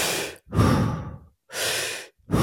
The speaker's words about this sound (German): es sind 40 Atemzüge, tiefe Atemzüge, rein und wieder raus, ohne Pause